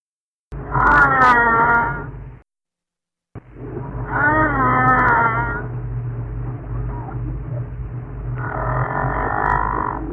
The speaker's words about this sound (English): The mystery sound is a gray whale.